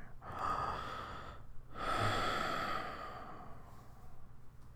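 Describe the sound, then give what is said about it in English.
A deep breath drawn in and let out: two long, loud breathy rushes with a short gap between them, then softer, steady breathing to the end. “Deep breath.”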